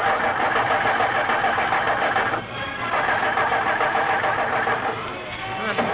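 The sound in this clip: A car engine sputters and fails to start with its fuel tank empty. It makes a continuous mid-pitched churning that dips briefly twice.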